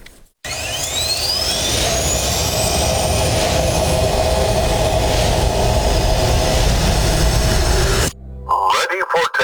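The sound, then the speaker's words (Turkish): Türkiye's Hürjet, its first national jet trainer aircraft, roars loudly on its first flight. High whining tones climb in pitch over the broad engine noise, and the sound cuts off abruptly near the end, followed by brief, scattered noises. “Türkiye'nin ilk milli jeti Hürjet'in ilk uçuşu başarıyla gerçekleştirildi.”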